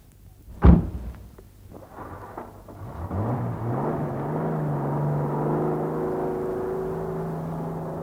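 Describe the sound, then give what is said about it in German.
A car drives up: after an early dull thud, a low engine rumble builds, its hum rising slightly in pitch, then settling into a steady drone that holds to the end. “Kam zufällig mit meinem Wagen hier vorbei”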